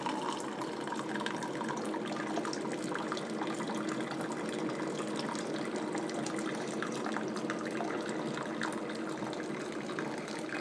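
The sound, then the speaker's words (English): Vinegar runs through an Elite coffee maker into a cup during a cleaning cycle, making a steady, continuous trickling splash that stays fairly faint and unbroken from start to finish. “I have the Elite. I've already ran 1 cup of vinegar through. I'm running the second one through now, as you can hear.”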